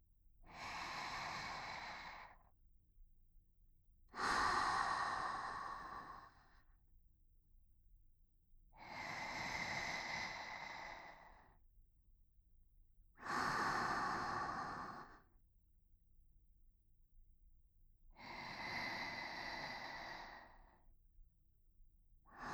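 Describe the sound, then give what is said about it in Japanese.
Slow, deep breathing in and out, long airy breaths with quiet pauses between them, about five full breaths followed by the start of another, with no talk. “吸って吐いて。今度は私と一緒にしていきましょう。”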